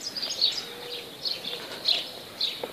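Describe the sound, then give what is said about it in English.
Birds singing at daybreak, around five in the morning: a few short, high chirps recur at irregular intervals, fairly faint over a quiet background. “Incessant bird beat, 5 a.m., 5 a.m., 5, until I'm up.”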